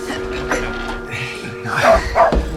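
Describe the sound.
A dog barking: a couple of sharp, high barks near the end, set against a steady, busy background of low rumbling noise.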